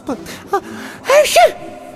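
A woman with a cold sneezes, a loud breathy burst that follows two short, sharp catches of breath, with no talking.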